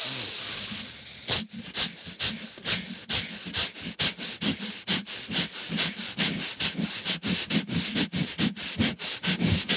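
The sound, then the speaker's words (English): Rapid, forceful nasal breaths of a breath-of-fire breathing exercise: many quick, evenly spaced puffs in a steady, fast rhythm after a brief hiss, each a short airy snort of even loudness with no talking. “So that is called the breath of fire. And this is a good one to do with your, with your yoni egg. Okay. So we'll just do it together.”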